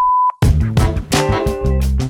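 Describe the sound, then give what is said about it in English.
A voicemail recording beep sounds once as a steady, mid-high tone lasting about a quarter second, and then a person begins talking. “If you have some feedback for us, leave it after the tone.”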